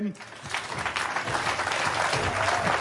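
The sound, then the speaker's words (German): Audience applause at a live concert as the band is introduced: dense, steady clapping sustained for about three seconds, with a voice faintly present at the start. “Sagte gerade, jetzt müsst ihr noch mal ein bisschen klatschen.”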